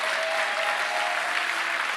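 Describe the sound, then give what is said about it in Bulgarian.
Audience applause during a sermon in church, a dense, steady wash of many hands clapping that holds at an even level throughout, with no voices standing out. “О, ръкопляскането ви само отнема телевизионно време.”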